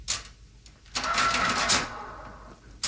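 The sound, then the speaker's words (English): A historical cash register works with mechanical clatter: a few faint clicks, then a longer, louder stretch of rattling with a bright, sharp burst near its end. “there's a special historical cash register. It's historical.”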